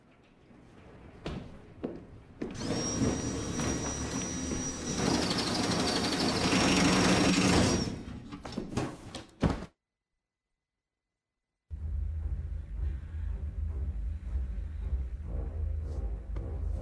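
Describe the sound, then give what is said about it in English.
A power drill runs for several seconds, drilling through a pillow into a wall. It makes a loud, steady grinding whine that cuts off abruptly. After a short silence, a low, constant hum follows. “Feathers are flying in the room outside as Burnham drills through the pillow.”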